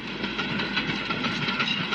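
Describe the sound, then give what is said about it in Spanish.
A train hauling horses in open wagons through the desert: a steady, dense rumble of rolling wagons with a rhythmic clickety-clack running under it, no voices. “Por el desierto avanza un tren que transporta caballos en vagones abiertos.”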